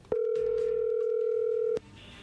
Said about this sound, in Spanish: Bueno, a ver, ahí se está marcando, ahí entró la llamada.